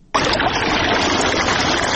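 Irrigation water rushes steadily through a pomegranate orchard in the Sefid Khar area of Tarinkot. The constant, full gushing sound starts abruptly after a brief quiet moment.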